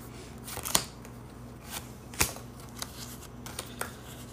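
Playing cards being dealt during a card game make a few faint, sharp flicks and snaps, spaced irregularly, over a quiet background with no talk.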